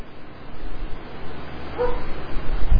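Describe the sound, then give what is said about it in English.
Dogs bark faintly in the background: one short, high yip rises out of low rumbling noise midway, with rough low thumps near the end. “affect those dogs barking back there and shut them up.”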